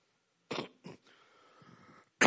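Throat clearing from a preacher mid-sermon: a few short, rough, gravelly bursts, each fairly loud, separated by brief pauses and a low lingering rasp, with no speech over them.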